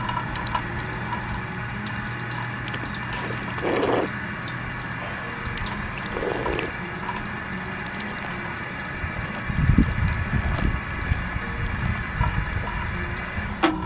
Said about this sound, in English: Oh, here's the water fountain. Let me get up on some of this.